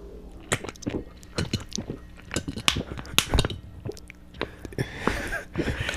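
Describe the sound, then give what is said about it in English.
Popcorn being chomped, as by a moviegoer in a theater: many irregular crunches and wet smacking bites in quick succession, moderately loud, with no speech. “Or like chomping on popcorn. Or talking. And all you hear is like something like...”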